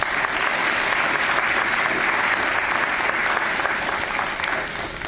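Sustained audience applause welcomes the session leaders at a church gathering, a dense, even wash of clapping that holds steady for about five seconds before easing slightly at the end.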